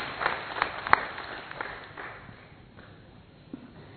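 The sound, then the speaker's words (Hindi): Soft audience clapping welcomes a visiting farmer: a few louder claps at the start, then a faint, thinning patter that tails off. “भाई साहब का करतल ध्वनि से अभिनंदन और स्वागत।”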